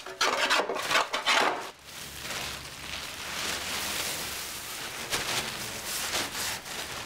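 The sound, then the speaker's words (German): Rasping and scraping of wood as men cut a wooden template for a boat hull, with rapid, harsh strokes at first, then quieter continuous rubbing and filing. “Die Männer schneiden eine Schablone für den Rumpf der Kleone. Wo gesägt und gehobelt wird, fallen Späne.”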